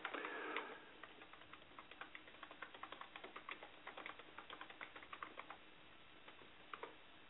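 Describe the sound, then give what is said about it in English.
Typing on a computer keyboard: many crisp, light key clicks in an irregular rhythm, with a few louder taps. No voices are heard. “All right, because I can't talk and type at the same time.”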